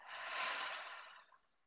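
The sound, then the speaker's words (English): A single slow, deep breath is taken during a guided relaxation exercise, heard alone as a soft, airy rush that swells and then fades within about a second. “Another full, deep breath in. And release.”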